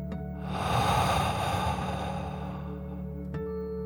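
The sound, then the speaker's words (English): A deep breath drawn in and let out during a calming bedtime relaxation for children: a soft, airy rush that swells for about two seconds and then fades, over a steady, gentle musical drone. “take one more deep dragon breath in and out.”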